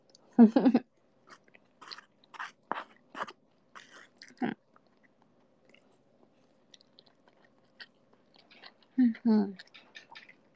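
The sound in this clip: Chewing while eating eel: several short, moist bursts of mastication separated by quiet gaps, with a louder cluster near the start and another near the end.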